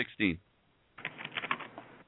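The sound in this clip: Rapid clattering of computer keyboard typing, a busy run of light clicks following a brief burst of voice, fairly faint overall.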